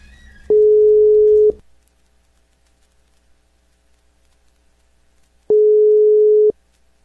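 Telephone ringback tone heard while a radio station calls a listener: two loud, steady beeps of about one second each at a single mid pitch, separated by roughly four seconds of silence.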